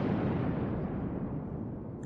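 A sudden thunderclap from a clear sky over two armies about to charge, a deep, heavy rumble that starts loud and fades steadily over about two seconds, with no voices.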